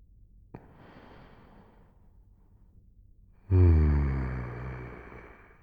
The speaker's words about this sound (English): Now take some slow breaths for me. I'll match yours.